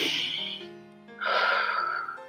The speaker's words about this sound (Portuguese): Vou respirar aqui, ó, gente, ó.